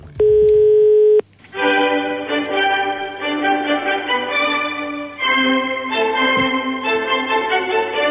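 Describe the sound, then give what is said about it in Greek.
Telephone ringing tone on a call to the Maximos Mansion: one steady buzzing tone about a second long, then a short gap and a sustained electronic melody. “και παίρνουμε τηλέφωνο στο Μέγαρο Μαξίμου.”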